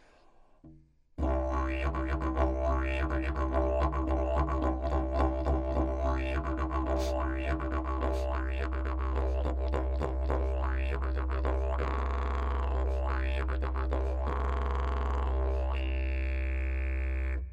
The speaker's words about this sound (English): You know, you use multiple tongue positions and tongue inflections when you play the didgeridoo to get all kinds of different sounds, like.